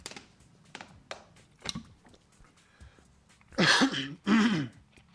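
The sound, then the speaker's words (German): Two loud, rough coughing bursts into a microphone close together near the end, after several faint taps and clicks. “Huste ich da auch noch in die Aufnahme.”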